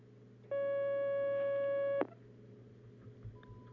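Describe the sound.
A telephone call connecting on the line: a single steady electronic tone lasting about a second and a half, cut off by a click, then quiet line hiss.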